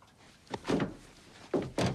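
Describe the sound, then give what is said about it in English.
A van's back door is opened with a few soft, muffled thunks and clunks, faint and short, spaced out over two seconds. “The van skids to a halt, and Evil Bill and Ted jump out. They open the back door, staring at their doubles with stern faces.”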